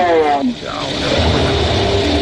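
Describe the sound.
A car engine as the vehicle starts to drive off: after a brief voice, a steady low rumble sets in and builds slightly, then holds to the end.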